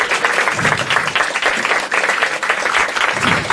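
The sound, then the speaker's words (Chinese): Audience applause welcomes a speaker at an evening cultural salon lecture: a dense, steady wash of many hands clapping, loud and unbroken for the whole stretch, with no voices over it. “咁我哋今晚嘅讲者系罗永生教授啦，我哋先俾啲掌声啊，新哥。”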